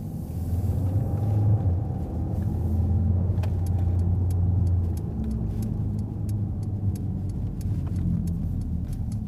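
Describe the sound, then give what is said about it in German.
Car driving on to the next location, with a steady low engine and road rumble throughout. Partway through, a regular, light ticking joins in. “Gut, wir werden jetzt weiterfahren. Wir fahren jetzt zum nächsten Standort.”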